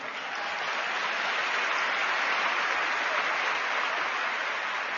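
Applause from a live program audience, dense and even from start to finish with no breaks, steady and loud with no talk over it.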